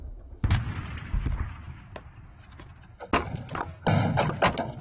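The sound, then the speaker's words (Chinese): Artillery fire in the middle of the night: several heavy, dull booms strike at irregular intervals over a low, rumbling background, with a couple of the blasts louder than the rest. “你们听见炮打的，俺都不敢出门。”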